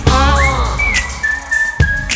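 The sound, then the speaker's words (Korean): Clear whistling over the music of a live song performance. The whistled tone slides upward, then holds a long, steady high note, with percussive hits in the backing underneath. “점점 가까이 들리잖아. 휘파람”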